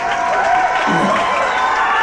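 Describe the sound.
Applause and cheering from a concert audience roll on as a steady, loud, unbroken wash of clapping and crowd noise for the whole stretch, with no clear breaks.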